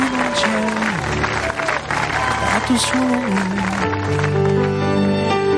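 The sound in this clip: Sustained applause from everyone present as a father and son hug, a dense, continuous clatter of clapping that stays fairly loud from start to finish.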